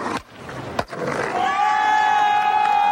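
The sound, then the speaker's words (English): Skateboard launching over a set of stairs at Embarcadero Plaza in 1991: two sharp wooden clacks a moment apart, then a steady, loud rolling whir with a sustained high whine that holds to the end. “That's the sound of a skater launching over a set of stairs at the plaza in 1991.”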